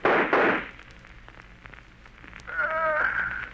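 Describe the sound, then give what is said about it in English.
Gunshots in an old radio crime drama: two quick loud bangs right at the start, followed by a quieter stretch with faint clicks and other sound effects. “If you will shoot, I will. I'll get him even if I can't see him.”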